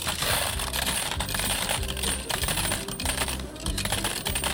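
Coins drop into a machine, making a dense, continuous jangle of metallic clinks and rattles that stays loud and busy with a rough rhythmic pulse throughout.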